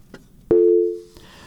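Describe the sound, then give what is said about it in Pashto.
A telephone line cut-off tone during a radio call-in: one steady, low electronic beep lasting about half a second, then fading out. Faint clicks come just before and after it. “ټلیفون لیکه قطع شوی، بل ته ورشو”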